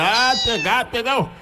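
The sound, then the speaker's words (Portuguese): A large litter of kittens and cats meowing, with several high, wavering meows overlapping one another in quick succession. “Olha os gatinhos, olha. Parece que tem uns 30 gatos que eu vi aninhado ali”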